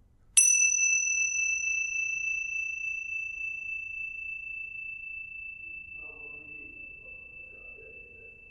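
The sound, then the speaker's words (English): A single bell strike rings out once, high and clear with shimmering overtones, then decays slowly and evenly over several seconds into near silence during a meditation on the present moment. “Okay, listen to the bell, and you'll encounter the present moment.”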